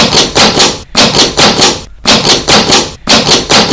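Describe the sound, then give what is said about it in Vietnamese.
Fists pounding hard on a door, both hands striking with full force. Many heavy, rapid thuds land in loud bursts, broken by three brief pauses. “Gõ to hơn, rồi dùng hết sức mạnh đấm cả hai tay. Cửa kêu lên rầm rầm, nhưng cửa vẫn không mở.”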